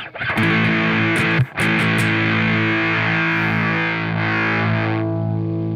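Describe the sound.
Electric guitar through a tone bender fuzz pedal with Russian germanium transistors in the first gain stage and vintage Hungarian military AC125s in the second. A loud, thick, buzzing chord sustains, breaks off briefly, is struck again and rings steadily to the end.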